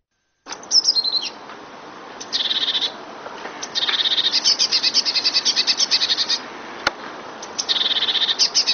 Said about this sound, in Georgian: დიდი წივწივა ბეღურასნაირთა რიგის ჩიტია. მას და მონათესავე სახეობებს საქართველოში ბევრს ნახავთ და ალბათ ხშირადაც გაგიგიათ მისი გალობა.